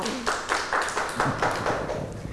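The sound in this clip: Rhythmic hand clapping for a young child who answered a teacher's question correctly during a children's lesson: a steady series of evenly spaced claps, moderately loud, with faint voices underneath.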